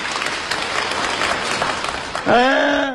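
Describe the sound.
Wedding guests applaud steadily to welcome the bride's father as he is called up to speak. A voice starts speaking as the clapping continues at the end.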